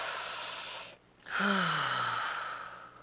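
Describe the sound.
A single deep breath: a brief quiet pause, then a long, soft sighing exhale whose tone falls in pitch, over a steady background hiss.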